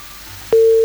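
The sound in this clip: A steady telephone line tone sounds after a call is cut off: about half a second of faint line hiss, then a loud, even tone starts abruptly and holds without a break.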